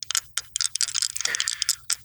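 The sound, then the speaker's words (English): Physical dice rolled during a tabletop roleplaying game: a quick run of many crisp clacks and rattles that come in short bursts, with brief gaps between the tumbles. “I'm rolling plus community. That's a plus 2. I hope, like, actual dice are okay. Actual dice are lovely.”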